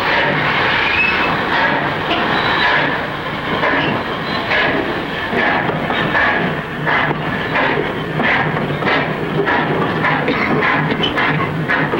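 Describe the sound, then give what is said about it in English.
A train of boxcars pulls out with a steady, loud rumble and a running clickety-clack of wheels on rails, continuous throughout without a break. “The train pulls out.”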